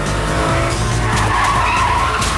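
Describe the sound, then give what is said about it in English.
Tires skid and squeal as a car swerves violently in an alley to avoid a truck, a loud, continuous screech over a roaring engine that lasts the whole moment without a break. “Stan swerves violently to avoid hitting a truck. Debris flies into the black car's windshield.”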